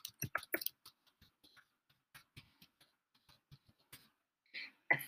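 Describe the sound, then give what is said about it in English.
Typing on a computer keyboard, a string of equal signs: many faint, light key clicks in an uneven rhythm, with short bursts and pauses. “I'm also three glasses of wine, and I just typed in a bunch of equal signs.”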